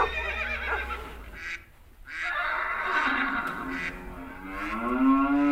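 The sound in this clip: Recorded farm animal calls play in a village museum set up like a farmyard with cowshed, barn and stable. A horse whinnies, with lowing livestock calls mixed in, and the harmonic calls continue loudly throughout without speech.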